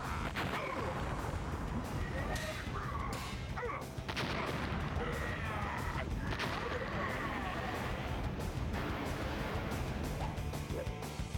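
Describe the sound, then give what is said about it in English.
Rockets fire in a video game battle against a giant robot, amid a dense, unbroken barrage of blasts and crashing explosions that stays loud and steady throughout. “There goes those rockets again.”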